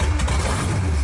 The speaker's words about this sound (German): Das ist der Sound von einem amerikanischen Oldtimer,